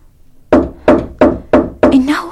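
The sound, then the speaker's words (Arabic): Five firm knocks on a door in a dramatized story, struck in an even, quick rhythm, each a dull, woody thump followed by a short ring. “إنه حمزة أبو عمارة. نعم، هكذا هو يطرق على الباب، لقد طال غيابه عنا. سأفتح الباب يا أبا عمارة”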